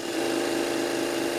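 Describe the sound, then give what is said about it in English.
A sewing machine running in the Cyclodelic clothing workshop, giving a continuous, even mechanical whirr with a steady tonal hum, loud and unbroken throughout. “And that sound you're hearing now in the background is the sound of a sewing machine. And it's no ordinary sewing machine. It's the sewing machine that sits in the workshop of Cyclodelic,”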